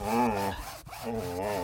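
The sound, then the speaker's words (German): Rasping, saw-like scraping from carving a pumpkin: two long, steady strokes with a brief break between them. “können Sie mal ein bisschen leiser Ihren Kürbis da schnitzen?”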